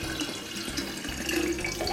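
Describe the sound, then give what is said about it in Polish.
Water running from a tap: a steady, moderately quiet splashing hiss of a continuous stream with small fluctuations, no voices. “Woda!”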